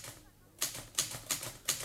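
Typewriter keys clack in a quick, slightly uneven run of sharp strikes after a short quiet opening, each hit crisp and bright, with no voices over them.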